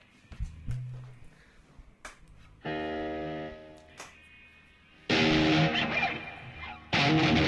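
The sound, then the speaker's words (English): Distortion effect on a sustained instrument tone: a steady, cleaner tone gives way to two loud, gritty, dense bursts of heavily distorted sound, the second one brief and cut off at the end. “Run some distortion.”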